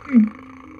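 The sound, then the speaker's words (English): A voice imitates a cat purring with a short, low, humming rumble that peaks early and then trails off in under a second. “Oh, Master, now I'm purring.”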